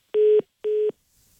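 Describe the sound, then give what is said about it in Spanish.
Telephone line tones as a call cuts off: two short, steady mid-pitched beeps of equal length with a brief gap between them, then only a faint hiss. “Mira nada más, que se nos corta la llamada.”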